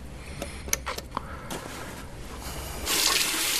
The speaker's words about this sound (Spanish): se lava la cara en el baño de su casa